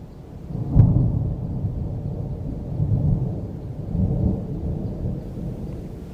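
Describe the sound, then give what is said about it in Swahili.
Thunder rolls low and continuous through a storm with heavy rain, opening with a sharper crack and then swelling in deep rumbling waves under a steady wash of rainfall. “Mungu alituma kimbunga kikubwa kilichojaa mvua na kikaharibu kila kitu mashambani.”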